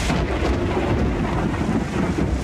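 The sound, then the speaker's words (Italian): Heavy rain pours down steadily on the day of an official royal visit during a harsh southern-hemisphere winter in June, a dense, loud, unbroken rush with a deep low rumble running beneath it. “Il giorno della visita ufficiale del re piove a dirotto”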